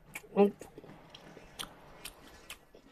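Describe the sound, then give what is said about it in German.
Bites into a Semmel bread roll: a few soft, crunchy snaps, one sharper bite early on and quieter ones after it, all faint. “So, Moment. Nochmal beißen. So. Jetzt ist sie schon fast weg. Moment, einmal noch.”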